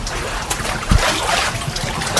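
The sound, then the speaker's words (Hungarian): A foot-pedal-driven mill wheel turns and churns water, giving a short run of irregular splashing and burbling. The noise is fairly loud, with a brief low thump near the middle. “Elindult a kerék, csobog is.”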